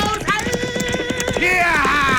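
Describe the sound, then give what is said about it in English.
Runaway horses galloping near the edge of a bluff as a radio drama effect, a rapid run of hoofbeats under loud, raised voices. “Have to ride between the runaway horses and the edge of the bluff.”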